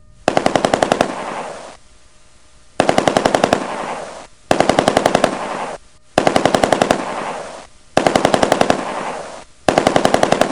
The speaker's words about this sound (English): And this is the sound of an AK-47.